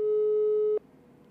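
A telephone busy tone on an unanswered call: a single steady, mid-pitched tone holds for under a second and then cuts off, leaving a faint hiss with no voices.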